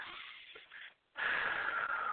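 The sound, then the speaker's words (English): A deep breath drawn in through the nose, then let out through the mouth during guided breathing: a soft hissing inhale, a brief pause, then a fuller, airy exhale with a faint whistling edge. “take a big breath in through your nose, out through your mouth”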